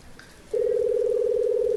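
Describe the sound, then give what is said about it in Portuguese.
A steady single-pitch telephone tone as a call is dialed, starting after about half a second of quiet background and holding unbroken and evenly loud to the end. “então eu vou ligar pra Força Bruta e pedir pra ela fazer isso”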